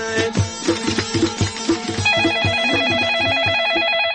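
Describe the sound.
An electronic telephone ring signals an incoming call to a radio show, with rhythmic tonal pulses that turn into a steady, fast warbling pattern partway through, loud and without voices.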